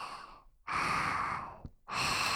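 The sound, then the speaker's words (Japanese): Slow, deep breathing in and out: long, airy, steady rushes of breath separated by short silent pauses, soft and unhurried. “息をゆっくり吸って吐いて”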